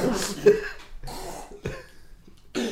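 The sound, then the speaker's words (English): A person coughs in a few rough, breathy bursts, some with a raspy throat-clearing edge, separated by short pauses. “I start coughing, I start patting your back, like, come on.”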